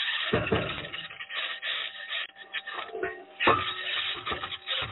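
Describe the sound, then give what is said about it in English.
Aluminum wheels scraping and grinding over rocks while driving, a rough, uneven rasping that swells into a few louder bursts, dull and muffled in tone, with no voices. “And then there's that weird, really weird scraping sound.”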